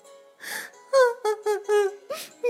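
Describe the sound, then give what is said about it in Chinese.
A teacher cries in short, tremulous voiced sobs and whimpers, several separate quavering bursts with brief pauses between them. “老师接过纸条后，一直看着我写的愿望。可让我没想到的是，老师哭了。”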